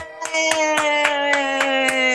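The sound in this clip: Hands clap in a steady, even rhythm, about eight crisp claps spaced roughly a quarter second apart, laid over a sustained held musical tone.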